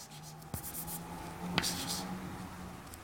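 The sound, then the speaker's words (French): Writing on a board during a lecture makes faint, scratchy strokes, broken by a couple of brief, sharp taps against the surface. “alors je vais l'écrire comme je vais l'écrire comme ça d'abord, URO G”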